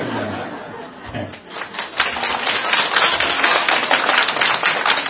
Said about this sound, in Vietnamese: Cái này là các ông không có vỗ tay mà để các bà vỗ tay cho.